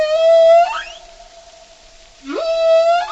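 Whale song in two long, loud tonal calls rich in overtones: the first holds a steady pitch and then bends upward at its end, and after a quiet gap the second sweeps up from low before holding steady.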